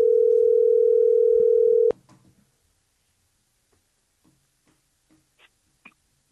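A steady telephone dial tone hums at one constant pitch for about two seconds, then cuts off abruptly with a click, leaving a few faint, scattered taps and knocks.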